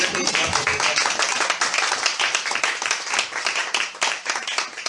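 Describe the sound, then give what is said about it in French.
Applause from a church audience, a dense, steady burst of many hands clapping at an even level for a few seconds. “Applaudissons pour le Seigneur.”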